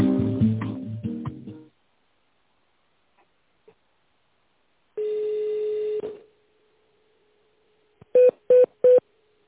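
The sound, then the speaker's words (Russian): Touch-tone keypad beeps dial a telephone extension number in tone mode: three short, evenly spaced, loud tones near the end, preceded by a longer steady tone and a couple of faint clicks. “Если вы знаете внутренний номер абонента, наберите его, пожалуйста, в тоновом режиме или дождитесь ответа секретаря.”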